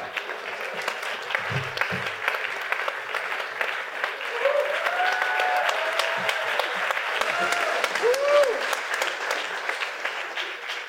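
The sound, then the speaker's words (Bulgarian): A roast comedy show audience gives a big round of applause: dense, sustained clapping that swells partway through, with a few whistle-like cheers rising above it. “Хора, бурни аплодисменти за Филип!”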